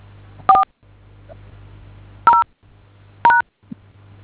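Telephone keypad dialing tones from a call to an automated phone menu: three short, loud dual-tone beeps spaced apart, each separated by a steady low hum on the line.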